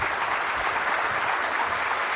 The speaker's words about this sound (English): Let's stand up and just give the Lord another round of applause, please.